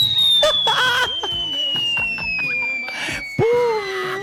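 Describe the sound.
A falling-bomb whistle: a long, slowly descending tone over busy background noise, ending in a sudden loud burst near the end.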